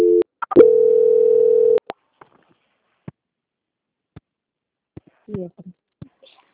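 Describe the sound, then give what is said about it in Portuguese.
A telephone tone during a call transfer: a short beep, then a steady, sustained tone of just over a second, followed by scattered faint clicks and a few brief soft sounds on the line. “eu já vou transferir a ligação para o controle de qualidade, tá? Tá ok. Transferência.”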